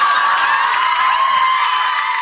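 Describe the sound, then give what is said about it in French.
A studio audience cheers and whoops in a loud, sustained wall of voices and shrieks that holds steady throughout. “J'adore les réactions de l'audience à chaque fois, du public.”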